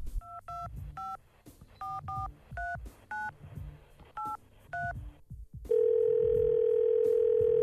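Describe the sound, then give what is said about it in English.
A telephone number being dialled on a keypad, a quick uneven run of many short two-tone beeps, then one loud, steady, unbroken tone that holds to the end. “So let's dial the number.”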